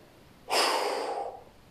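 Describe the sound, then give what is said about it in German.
A single forceful exhale through a rounded mouth: a breathy rush of air that starts abruptly, holds for under a second, then tapers off. No voices. “Und dann atme mit einem kraftvollen Ausatmen durch den runden Mund aus.”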